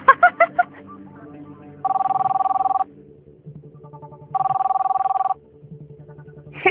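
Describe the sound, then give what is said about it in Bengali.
A telephone rings in two long, steady trilling bursts separated by a pause of about a second and a half. The ring is loud and even in pitch, over a low background hum. “হাসি বন্ধ কর, phone ধর, তোর বান্ধবী phone দিয়েছে।”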